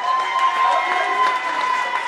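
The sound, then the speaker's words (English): A graduation crowd roars as graduates are called up one at a time to receive their diplomas, a dense, sustained wash of cheering and voices with no pauses. “graduates are called to the front of the room one at a time to receive their diplomas, the crowd goes wild. It is one of the liveliest graduation ceremonies I have ever been to.”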